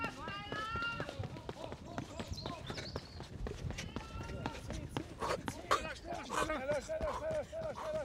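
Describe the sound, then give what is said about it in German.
Footsteps of a person sprinting 100 metres on a track: quick, steady footfalls thump in a fast running rhythm, partly under raised voices. “So, 19,6 Sekunden für 100 Meter, los geht's. Ich bin aufgeregt. Huh. Und laufen, laufen, laufen.”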